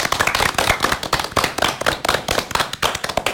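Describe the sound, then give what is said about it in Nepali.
Children clap for their teacher and for themselves: a loud, continuous run of many quick, uneven claps with no pause. “लु न त तिमीहरूको गुरुमा अनि आफ्नै निम्ति पनि एकपल्ट मजाले ताली बजाइदेऊ न त।”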